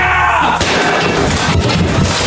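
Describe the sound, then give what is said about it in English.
A gaming setup being smashed and destroyed, with a sudden loud crashing impact followed by a dense, continuous spray of crunching, rattling debris noise. “Ooh, the gaming setup. Sorry, but I gotta destroy this.”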